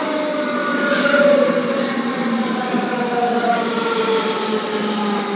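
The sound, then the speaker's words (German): A train rolls past with a steady, loud rumble that swells briefly near the start, while thin metallic wheel squeals ring faintly over it; no voices are heard. “oh, da kommt eine Bahn, das ist nicht meine. Ich mache kurz eine Pause.”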